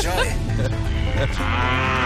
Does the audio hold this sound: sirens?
no